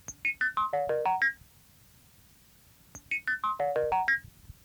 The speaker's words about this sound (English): Our present-day telephone system is an example of one of these discoveries.